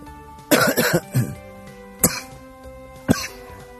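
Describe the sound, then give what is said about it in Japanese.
A person coughs: a quick cluster of three harsh coughs, then two short, sharp single coughs spaced apart. The coughs are fairly loud and stand alone with no talk. “失礼しました。咳が出る。”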